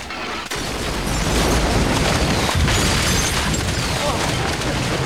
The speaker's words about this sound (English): a chain of explosions disintegrates sections of the ship in turn, culminating in a gigantic fireball that does for the huge ship.